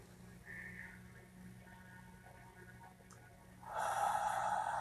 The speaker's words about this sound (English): We can take our first deep breath in.